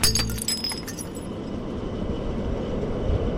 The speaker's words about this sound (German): Heute gehen wir in die Höhe. Von Chur aus mit der Rätischen Bahn auf Filisur.